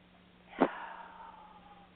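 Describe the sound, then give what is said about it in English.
Deep cleansing breath drawn in during a guided relaxation session, a faint airy inhale that opens with a sharp sniff-like burst and then trails off softly. “let's reinforce the positives at 0 and at 1 with a deep, deep cleansing breath in”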